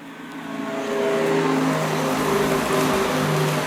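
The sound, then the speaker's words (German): Synthetic pedestrian warning sound of a Renault Zoe electric car, switched on: a steady blend of layered hum-like tones over soft hiss, swelling a little after the first second and then holding level. “So hört sich eine Renault Zoe an, wenn man es eingeschaltet hat.”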